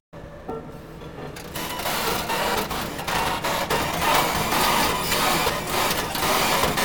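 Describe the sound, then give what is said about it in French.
A construction machine running with a loud, steady mechanical whirring and clattering, punctuated by repeated sharp ticks throughout. “Putain, mais cette machine de travaux fait des bruits incroyables. Tiens, d'ailleurs, j'en ai une de machine de travaux, là.”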